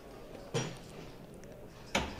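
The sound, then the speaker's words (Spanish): Two sharp metallic knocks of the llamador on a Holy Week procession float on Holy Monday, spaced well apart and faint against steady background noise. “Y escuchábamos antes el llamador”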